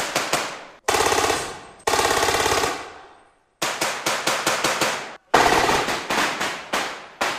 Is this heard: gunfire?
yes